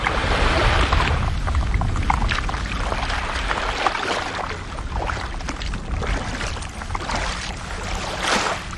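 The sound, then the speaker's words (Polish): Water churns and splashes as someone wades into the Baltic Sea to go paddling. It is a loud, continuous wash of sloshing water with no clear pauses and no voices. “Dobra, to ja jestem gotowa. Wchodzę do wody. Widzimy się gdzieś za pół godzinki, jak już sobie popadluję.”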